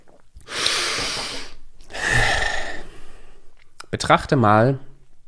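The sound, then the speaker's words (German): Two long, deep breaths are drawn audibly by a speaker pausing between fast sentences, each a rushing, airy hiss lasting around a second. A voice starts talking right after them. “Kurz nochmal durchatmen. Ich merke, wenn ich so schnell rede, dann atme ich zu flach.”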